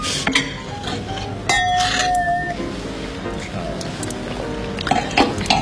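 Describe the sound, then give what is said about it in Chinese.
Glasses clink together in a toast. A single bright ringing chime sustains for about a second amid busy background noise. “干杯。”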